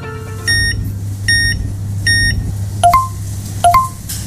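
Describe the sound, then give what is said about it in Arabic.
Card payment terminal beeps ring out loud and clear: three short, evenly spaced high beeps, then two quicker two-note beeps, over a low steady hum. “سمعت هالصوت؟ هذا ما مجرد صوت جهاز الدفع لمشترياتك”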